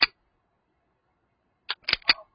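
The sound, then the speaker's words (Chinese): Harsh metallic clicking as a carbine's trigger is pulled: one sharp click, a pause, then a quick cluster of several crisp clacks, alone with no voices. “同时提起了扳机，扣动卡宾枪刺耳的金属摩擦声，那声音咔嚓咔嚓响了一阵。”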